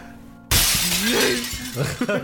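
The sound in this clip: Glass window shattering as a body is thrown through it: one loud, sudden crash about half a second in, followed by a sustained bright roar of breaking and falling glass that stays loud to the end.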